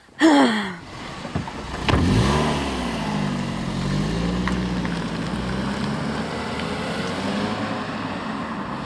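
A car engine revs up as the car drives away toward a summer house, loud at first, then a droning engine note that wavers up and down and holds steady to the end.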